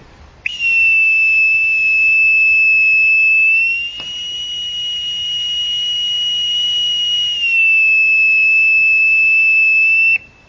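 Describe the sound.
A bosun's call pipes the side, played by a Command Warrant Officer at the Faslane submarine base in Scotland. One shrill, unbroken whistle holds for about ten seconds. It steps up in pitch midway, holds, then drops back before cutting off.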